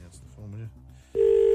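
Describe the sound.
Telephone ringing during a live call-in: talk gives way to a loud, steady electronic ring tone that starts abruptly and holds at one pitch.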